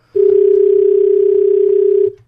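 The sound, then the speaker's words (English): A telephone dial tone sounds during an attempt to phone someone: one loud, steady, unbroken tone lasting about two seconds, then cutting off. “Okay, I must push the button now. Hold on. And is that you trying to phone her?”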